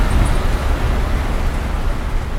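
A mobile library bus driving along roads in the Jura gives off a loud, continuous rumble of engine and road noise that stays steady throughout, with no voices.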